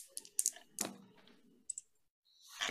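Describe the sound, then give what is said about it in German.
Dice are rolled during a tabletop role-playing game session: a few quick clusters of sharp clicking clatter with brief pauses between them, ending in a soft rustling hiss, all faint. “und würfel einmal volle Fahrt voraus.”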